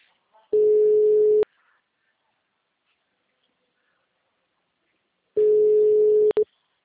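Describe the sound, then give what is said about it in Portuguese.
Telephone ringback tone on an outgoing call: two steady single-pitch tones, each about a second long, separated by a long silence. “Agora chamando.”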